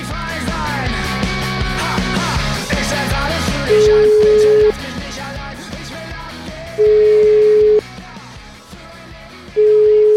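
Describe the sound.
Ringback tone of a telephone call being placed: three steady single-pitch tones, each about a second long and spaced a few seconds apart, sound loud over a busy, cluttered background.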